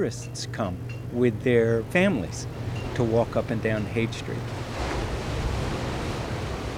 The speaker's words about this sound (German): Ich blinzle in die gleißende Brandung an einem Sandstrand von Big Sur, 3 Autostunden südlich von San Francisco.